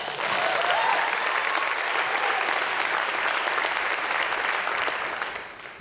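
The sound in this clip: Audience applause welcomes speakers at a Hope College gathering: loud, steady clapping from a crowd that holds for several seconds and then eases off at the end.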